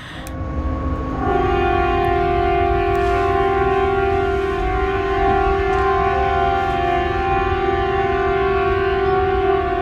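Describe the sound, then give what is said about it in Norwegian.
Civil defence sirens being tested at noon in Bodø city centre swell in within the first second, then hold a loud, steady, multi-toned wail that continues unbroken to the end. “Og jeg gikk ut og skulle ta opp lyden av disse sirenene, fordi det jo det sivilforsvaret som testet disse sirenene sine samtidig.”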